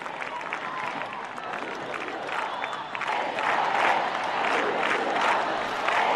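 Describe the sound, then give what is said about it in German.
A large crowd of young people chants in Spanish that they are the youth of the Pope: a dense, steady roar of voices with rhythmic swells that grows slightly louder toward the end. “Das ist die Jugend des Papstes, skandieren die jungen Leute hier auf Spanisch.”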